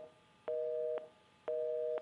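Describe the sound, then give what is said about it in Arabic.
Telephone line tone after a call with a caller from Yemen is cut off: two steady, mid-pitched tone bursts of about half a second each, separated by silence, with no voices. “طيب انقطع اتصال مع حسن من اليمن”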